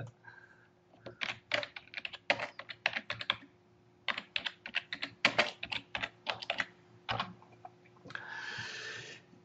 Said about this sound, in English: so it's hard to type and talk at the same time